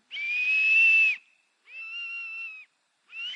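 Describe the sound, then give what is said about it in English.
A netball coach's whistle shrills in three steady, high blasts: a long first one, a slightly shorter second after a brief gap, and a third that is cut off at the end. “At least I can blow the whistle.”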